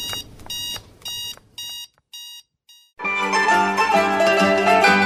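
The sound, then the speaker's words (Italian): Shop security alarm going off, a bright electronic beeping in a series of short bursts that stop briefly before a burst of loud music takes over. “L'allarme scatterà.”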